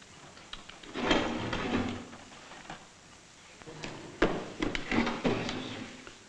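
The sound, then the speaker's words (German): A wooden box is opened in two bursts of wood-on-wood noise: a longer scraping and rubbing stretch early on, then sharper clacks and knocks later. “Öffnen Sie die Kiste.”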